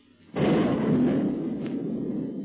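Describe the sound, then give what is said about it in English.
One heavy boom from a boat's gun shelling a solid rock cave, with a sudden sharp onset followed by a deep rolling rumble that carries on to the end, with no voices. “When a sound like thunder reaches their ears, the octopus boat is shelling the cave, and as the bombardment continues”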